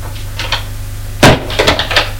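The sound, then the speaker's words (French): Knocking on a door before entering: a couple of light raps, then a louder sharp thud and a few more quick knocks and clatters. “Elle frappe à une porte et entre.”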